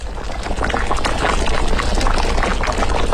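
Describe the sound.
Boiling water is poured into a fish soup cooking with fried seasonings and ginger pieces. A loud, steady bubbling and gurgling wash of liquid runs for the whole clip.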